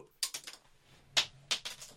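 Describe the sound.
Faint, crisp clicks and taps as a card with writing on one side is flicked up into the air and handled, coming in two quick clusters of light ticks separated by a short quiet gap.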